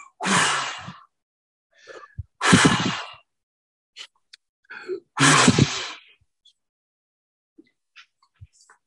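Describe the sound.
A person blows out three strong, breathy gusts, like wind, evenly spaced with quiet pauses and faint breath sounds between them.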